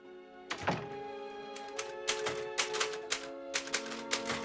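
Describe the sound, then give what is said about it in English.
Typewriter keys clacking on a machine with a badly fading ribbon. There are many sharp strikes in an uneven rhythm over a steady tonal backdrop. “The printer ribbon is fading badly now, but Paul types on.”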